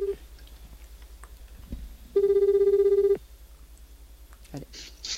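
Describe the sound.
A telephone ringback tone plays while a call is placed to a store manager: one steady, buzzing tone lasting about a second, with faint background noise before and after.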